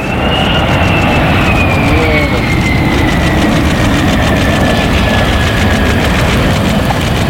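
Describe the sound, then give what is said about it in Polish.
F-35 fighter jets landing at Łask air base make a loud, unbroken low roar throughout, with a thin high whine that slowly drops in pitch. “F-35 przyleciały do bazy w Łasku w eskorcie polskich F-16. Nad samą płytą dwa niskie przeloty. Chwilę po 18:00 pierwsze polskie myśliwce piątej generacji wylądowały.”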